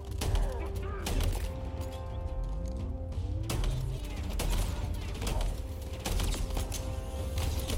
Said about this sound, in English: Nice new shotgun. This is awesome.